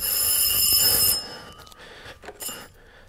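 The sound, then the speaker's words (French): A flea-market push-button telephone with orange keys rings with a shrill, sustained bell-like tone that cuts off after about a second, followed by faint scattered noises. “Il sonne de nouveau. Le téléphone à touche orange qu'elle a trouvé dans l'une des innombrables brocantes de notre quartier.”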